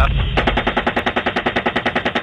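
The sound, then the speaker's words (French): Machine gun fire from an American helicopter aimed at an ambulance: a loud, rapid, unbroken burst of evenly spaced shots that runs to the end. “Ils tirent sur l'ambulance.”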